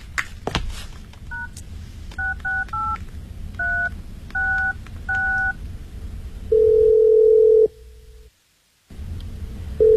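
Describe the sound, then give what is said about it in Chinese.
A telephone call rings unanswered: handset clicks, then a quick series of dual-tone keypad beeps, a long steady ringing tone, a gap of silence, and the next ring beginning. “你现在再给他打个电话试试。”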